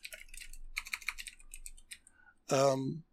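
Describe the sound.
A quick clatter of keystrokes on a computer keyboard while writing down a list, about two seconds of fast typing followed by a short voiced sound.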